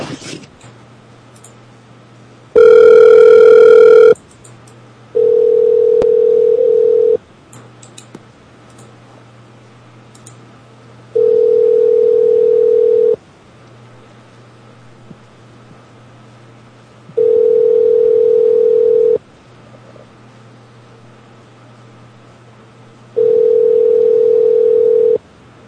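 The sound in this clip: A telephone call to a cab company: one brief harsh dialing tone, then four evenly spaced ringback tones of about two seconds each, separated by longer gaps over a low steady hum.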